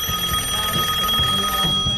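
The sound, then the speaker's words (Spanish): A telephone rings with a steady electronic tone pulsing in a quick repeating pattern, heard alone at moderate level. “Me están llamando, espera. ¿Quién carajo? ¿Está sonando?”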